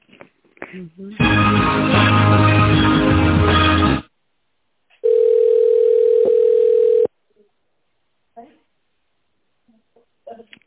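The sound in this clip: During a business call, a steady telephone tone plays while the call is transferred. It holds one level pitch for about two seconds, coming after a loud, harsh burst of line noise, with faint brief sounds before and after.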